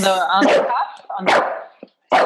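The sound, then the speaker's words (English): A bulldog barking, a few short, sharp barks spaced through the moment, mixed with a person's voice. “stop barking.”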